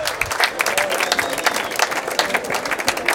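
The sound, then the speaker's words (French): An audience applauds at an evening show at an ancient open-air theatre: a dense, loud, steady crowd clapping throughout. “Sans transition, je vous demande d'applaudir deux personnages.”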